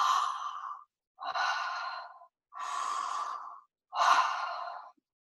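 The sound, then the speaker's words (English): Deep, even breathing in a guided breathing exercise: four long, airy breaths, inhales and exhales of about a second each, with no talk between them. “it's just an even, nice, full inhale and exhale.”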